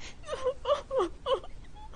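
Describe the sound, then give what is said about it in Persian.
A woman cries over her fiancé leaving for military service, with several short, wavering wails and whimpering sobs, each rising and bending in pitch, separated by brief catches of breath. “آخه کی برای سربازی رفتن نامزدش گریه میکنه؟”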